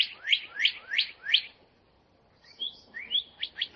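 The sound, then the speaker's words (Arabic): A small pet bird kept in a cage chirps in quick, high, sweeping notes. One run of four chirps is followed by a short pause and then another rapid run. “وضعت ياسمين العصفور في قفص جميل، لكن العصفور لم يعجبه القفص وظل يصيح.”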